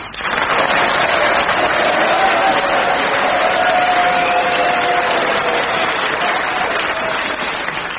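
Studio audience applauding to show approval for a panellist in a comedy panel game tie-break, a dense, loud wash of clapping that holds steady for the whole stretch.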